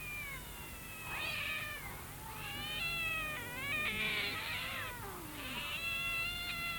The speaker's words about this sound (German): Eine Katzenversammlung. Eine richtige Versammlung.